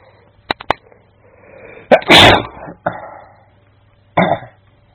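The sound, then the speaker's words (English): A person with a stuffed-up, runny nose sneezes once in a loud burst, set among a few smaller breathy sounds, with no talk. “Bless me. Now I've been at university for a few hours and I've been having to stop myself sneezing”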